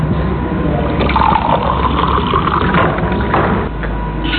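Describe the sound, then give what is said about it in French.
Water rushes inside a seawater desalination plant on the Mediterranean coast. The steady roar is loud and continuous with no talk, dropping slightly in level near the end. “Alors une station de dessalement d'eau de mer, comment ça fonctionne? Illustration à l'OSEMA, l'unique usine de la côte méditerranéenne.”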